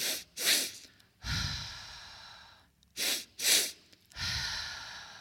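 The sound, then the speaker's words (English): A quiet breathing pattern repeats twice: two quick inhalations through the nose, then a long, relaxing exhalation through the mouth. “Which consists of a double inhalation through the nose and a long exhalation through the mouth.”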